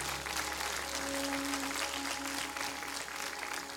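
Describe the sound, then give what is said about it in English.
Applause from a church audience clapping their hands in praise, a steady dense wash of many hands sustained for several seconds at moderate level, with a faint held tone underneath. “you can give God a hand clap of praise.”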